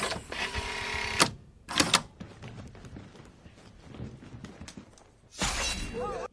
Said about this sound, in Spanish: Eso es una espada desenfundando, exactamente. Pues cada vez que alguien en cualquier película saca una espada de la funda, se oye este sonido.